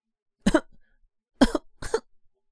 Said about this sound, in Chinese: 可是没有花儿过来，于是他咳了一下，